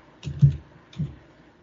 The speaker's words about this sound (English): Right, let me type that in because uh, Juleblod not coming up.